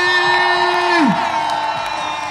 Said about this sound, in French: Et enfin on a un public en folie.